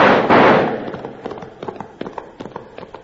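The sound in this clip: An ambush gunfire volley is fired at passing riders. A loud opening blast is followed by many rapid, sharp pops and cracks that come in an uneven, scattered rhythm.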